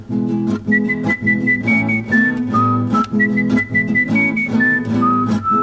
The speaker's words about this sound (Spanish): Bueno, ¿y esos chiflidos qué?